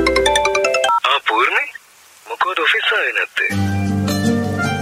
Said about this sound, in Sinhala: තේමී හිටපු කාලේ පූර්ණික ෆෝන් එක රින් වෙනවා.